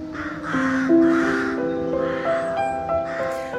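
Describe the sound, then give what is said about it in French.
Rooks cawing around an old parsonage, a chorus of harsh, hoarse calls repeated many times and overlapping one another, fairly loud and steady throughout, with no talk. “Vous entendez donc tout ce bruit des corneilles, je pense, des rooks en anglais.”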